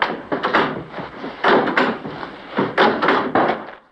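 A door is pushed and forced slightly ajar, with a series of dull scraping thuds and rubs in irregular bursts as it gives way under effort, fairly loud with no voices.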